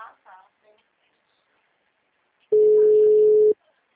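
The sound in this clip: A telephone ringback tone plays while a caller waits for someone to answer: one loud, steady, mid-pitched beep lasting about a second, following a brief moment of someone speaking.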